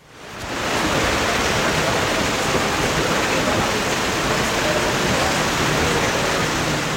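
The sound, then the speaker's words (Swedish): Rain pours onto a white umbrella during a wet women's golf match in the Netherlands, a dense, steady, loud hiss that swells in the first half second and then holds evenly throughout. “Ja, men framförallt kanske har det varit rätt blött kan man säga. Så här har det låtit under det vita Radiosporten paraplyet idag.”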